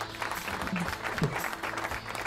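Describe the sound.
Applause sound effect played at the close of an interview: faint, even clapping with a voice briefly audible beneath it.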